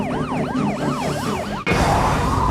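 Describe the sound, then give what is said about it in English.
A CHP police motorcycle's siren wails in a fast, loud, repeating rise-and-fall cycle several times, then cuts off abruptly into a broad roaring rush of noise. “There's the CHP motorcycle pulling in from the right.”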